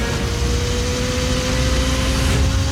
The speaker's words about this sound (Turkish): Ne görüyorsun? SWAT motosikletleri.